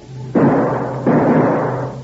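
Gunshots ring out during trick shooting in a radio drama: two sharp, loud blasts, each trailing into a long, hissing tail, over a low steady hum.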